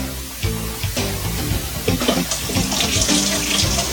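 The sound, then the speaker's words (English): Tap water runs steadily as a spoon used for peanut butter is rinsed, making a continuous splashing rush with irregular surges and no voices. “Rinse off my spoon.”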